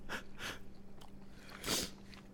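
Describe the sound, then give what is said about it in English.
Quiet chewing on a banana bar, a few soft crunchy bites and moist mouth noises heard alone with faint breathing. “Can't taste any banana. Oh, that's perfect with a banana bar. Can't really it? Taste any nuts. All I taste is like kind of a stodgy sweetness.”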